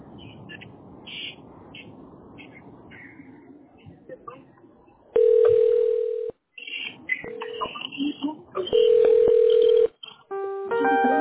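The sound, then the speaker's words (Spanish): Telephone ringing tones play while a call is being connected. After a quieter, chirpy start, three steady mid-pitched tone bursts sound, each loud and flat, then a higher multi-note tone begins at the end. “Permítame conectar la llamada”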